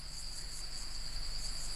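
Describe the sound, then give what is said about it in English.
Crickets in the Australian bush keep up a constant, shrill high-pitched trilling drone, faint but unbroken, over a soft low background hum with no voices. “The sounds of the bush.”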